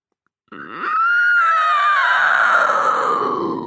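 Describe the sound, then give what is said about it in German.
An angry scream echoes down a labyrinth corridor, a single loud, rough cry that opens with a low grunting edge, then swells into a long, harsh, sustained howl whose pitch slowly sinks toward the end. “Der Lärm hallte im Gang hinter uns wieder. Der zweite Schrei war wütender und viel näher.”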